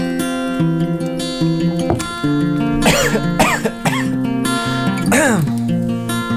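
Coughing from a tiny thing caught in the throat: several short, rough coughs scattered through the second half, heard over steady background music.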